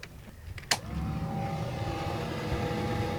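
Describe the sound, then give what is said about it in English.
A ventilation fan on a boat switched on before starting a gasoline flathead Atomic 4 engine, a marinized tractor engine. A click comes first, then the fan whirs at a steady, faint level. “Get the fan going because it's gas.”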